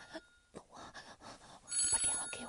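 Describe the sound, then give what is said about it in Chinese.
A mobile phone ringtone plays faintly, mixed with other noise, growing brighter and fuller near the end. “真是我电话，我电话就是这个声音呢”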